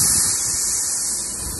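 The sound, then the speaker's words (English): A weed sprayer's red button releases its pressure in a loud, steady hiss of rushing air that holds nearly even for its whole length and eases slightly toward the end. “But there's a little red button here on top of the weed sprayer, and if you press that button, it releases all the pressure very, very quickly.”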